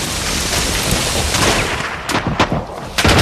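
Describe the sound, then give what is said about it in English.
Bangalore pipe charges explode and blast barbed wire apart on a sandy shingle beach, spraying sand. A dense, loud roar of blast noise runs throughout, with a few sharp bangs standing out near the end. “They light the fuses in the banger pipes and slide them over the top. The barbed wire bursts apart. Sand sprays everywhere.”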